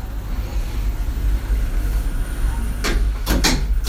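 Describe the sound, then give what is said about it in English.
Lift doors slide shut over a steady low hum, ending in a few short clattering knocks as they close. “fermeture des portes. Doors closing.”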